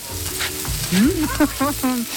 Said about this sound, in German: Da brutzelt schon eine Wokpfanne mit Gemüse